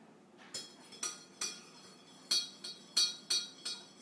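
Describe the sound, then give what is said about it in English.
A spoon clinks against a cup while stirring tea, giving a series of bright, ringing taps in an uneven rhythm, fairly faint and with no other sound. “I'm stirring tea, look.”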